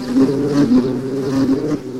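Buzzing of a honey bee colony: a steady, low, droning hum of many bees, wavering slightly in loudness throughout, with no voices.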